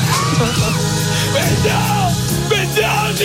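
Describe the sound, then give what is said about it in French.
A football commentator screams excitedly during a match. The raised voice is sustained and loud, with a wavering pitch over steady background noise. “Il vit les matchs comme personne. Il a hurlé.”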